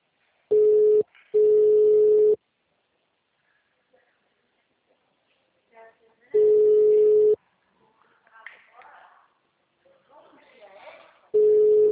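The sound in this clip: Telephone ringing tone on a call, a steady mid-pitched beep in long bursts separated by pauses of several seconds. Faint muffled voices are heard between the tones.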